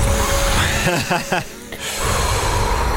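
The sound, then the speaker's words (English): Deep breathing in and out during a guided meditation, a steady breathy hiss filling the whole clip, broken midway by a short, wavering voiced gasp before the rushing breath resumes. “Would you mind giving us a 10-second guided meditation? Sure. Go for it. Breathe in, breathe out, continue.”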